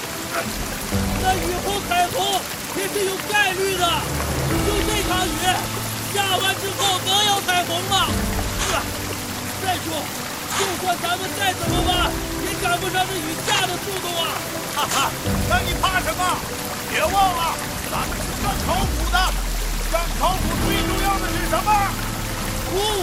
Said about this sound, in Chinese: 哇， 这雨也太大了吧！ 看，下点雨怕什么？不经历风雨，哪能见彩虹啊？